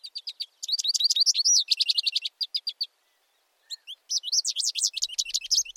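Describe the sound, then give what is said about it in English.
An American goldfinch sings rapid, high-pitched twittering and warbling phrases, bright and clear, broken by a short pause before a final burst of quick notes. “I don't know the life expectancy of the American goldfinch, but I'm willing to bet that this little guy has gone to that big nest in the sky, further up in the sky. But his song is still here”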